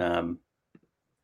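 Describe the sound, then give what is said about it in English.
Two quick, faint mouse clicks, close together, made while trying to share the screen in a video call. A brief bit of talk comes just before them, and silence follows. “So share screen. It's not letting me click on share.”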